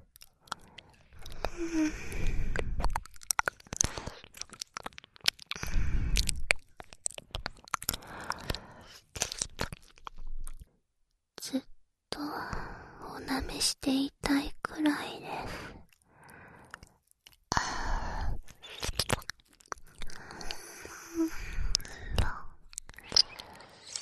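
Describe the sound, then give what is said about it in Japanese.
Wet, close mouth sounds of ear licking with soft whispering, many small smacks and slurps in an uneven rhythm, some clustered and some separated by brief pauses. “こちらのお耳も美味しいので、舐めていて、私も心地いいです。”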